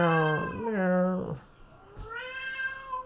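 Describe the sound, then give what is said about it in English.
A pet cat meows, apparently wanting to be let out while it is raining: two drawn-out, whiny meows with wavering pitch, separated by a short gap with a soft thump. “meow. He wants something. I think he wants out.”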